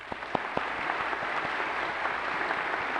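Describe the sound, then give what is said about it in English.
Audience applause welcoming visiting professors at a morning ceremony: dense, steady clapping from a crowd that holds at an even level throughout, with a few sharper claps standing out near the start. “Let's give all of these a great welcome.”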